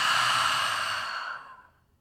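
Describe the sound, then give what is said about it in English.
A single long exhale through an open mouth, a breathy airy rush that starts loud and fades away over about a second and a half into silence. “Let's open the mouth. Open your arms out wide and exhale.”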